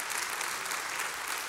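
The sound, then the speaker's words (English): Steady applause from a church audience during a worship service, a faint, even wash of many hands clapping for a second and a half with no voices. “You can clap at that.”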